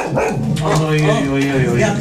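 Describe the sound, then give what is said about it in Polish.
Dog barking and yipping loudly in a hotel, with several short, harsh barks and whining, tonal yelps crowding together in quick succession. “Jaki straszny pies.”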